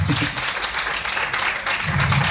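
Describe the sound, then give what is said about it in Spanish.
Applause at a radio award ceremony with guests in formal dress, dense and continuous clapping holding an even level from start to finish. “Bueno, está abreviado, el aplauso es cierto que duró 5 minutos.”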